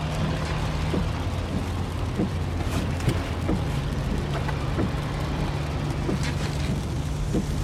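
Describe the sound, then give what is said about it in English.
Steady low hum of a car interior during a ride home, a constant engine-and-road drone with a few faint scattered ticks and taps over it and no talking. “This is the sound of your ride home with Dad after he caught you vaping.”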